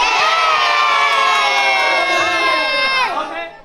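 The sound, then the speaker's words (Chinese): Many children shout and cheer happily at an art education day. The high-pitched whoops are loud and sustained, then fade toward the end. “哇，真的是不是有听到很多小朋友很开心的在呼喊？”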